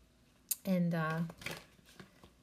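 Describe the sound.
Tarot cards are drawn from a deck with a few soft papery snaps and slides. A voice speaks briefly between the card sounds.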